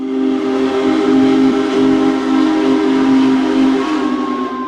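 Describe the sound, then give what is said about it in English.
A loud, steady steam whistle from the world's largest operating steam locomotive, a Big Boy, sounds as one continuous multi-tone blast that holds for the whole clip with little change. “the world's largest operating steam locomotive is headed to Kansas City.”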